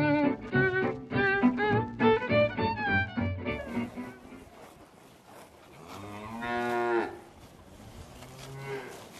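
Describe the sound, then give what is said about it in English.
Cattle mooing as they graze: a quick run of low, harmonic bellowing calls, followed after a quieter stretch by a longer, drawn-out moo and a fainter call near the end. “What you're hearing are sounds of cattle grazing peacefully”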